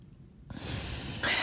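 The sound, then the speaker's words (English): A single deep, slow breath drawn into the lower belly: a soft airy hiss that starts after a quiet moment and swells gradually, steady and unvoiced, with no talking. “take a moment to close down your eyes and take a deep, slow, long breath into your lower belly.”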